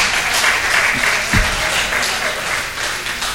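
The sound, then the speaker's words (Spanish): A short burst of applause from a group of students in a theology course. Brisk, even clapping lasts a few seconds at steady loudness, with no talk over it. “Y al grupo 2, aplauso.”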